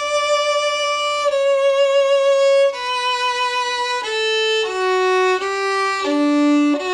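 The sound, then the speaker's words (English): A classical wedding-ceremony melody played on a single instrument: a slow series of clear, sustained notes stepping from pitch to pitch, loud and steady with no voices. “a lot of times people ask for canon and D, and a lot of the piece sounds like this.”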